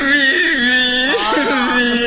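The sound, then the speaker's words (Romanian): A person whimpering and starting to cry, a drawn-out vocal tone that quavers and wobbles unsteadily in pitch, heard alone without other sounds. “Nu, te rog, nu. Să nu începi acum cu plânsul. Orice, dar asta nu. Nu pot suferi să-mi scâncească cineva la cap.”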